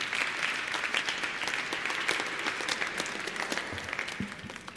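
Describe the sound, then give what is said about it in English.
Audience applause at a stage talk: steady, moderately loud clapping from a crowd, continuing evenly and easing slightly toward the end. “A woman sitting on stage with him leads the muted audience into applause.”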